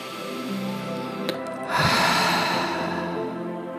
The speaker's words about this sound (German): Und so nimm jetzt einen tiefen Atemzug